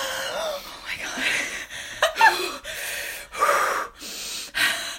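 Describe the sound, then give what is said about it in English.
A person takes a series of audible calming breaths, each a breathy rush of air in an uneven rhythm, some sharp like gasps or snorts. “I'm taking some calming breaths.”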